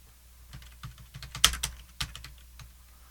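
Typing on a computer keyboard: an uneven run of many key clicks, some struck noticeably harder than others, with no talk.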